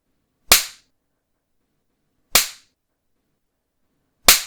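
Three sharp spanking slaps on bare buttocks, each a crisp, loud smack, evenly spaced about two seconds apart with silence between, and no voices.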